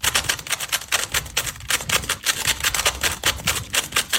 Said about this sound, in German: Zauberwürfel in nur 4,27 Sekunden gelöst. Damit wir uns das jetzt alle mal vorstellen können, also der ist komplett verdreht und das hier sind 4,27 Sekunden. Hört genau hin.